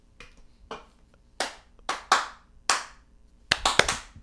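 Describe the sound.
Hand clapping: a series of sharp, loud claps with short pauses between them, ending in a quicker cluster of claps.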